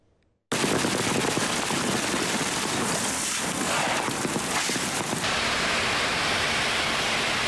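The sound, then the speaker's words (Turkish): Hail pounding roads and vehicles in Kahramankazan, turning the streets white. After a brief quiet, a dense, loud clatter starts abruptly and continues unbroken to the end as a steady rattling roar. “Kahraman Kazan'ı dolu vurdu. Yollar beyaza büründü. Araçlar zor anlar yaşadı.”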